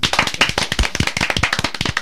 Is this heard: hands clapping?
yes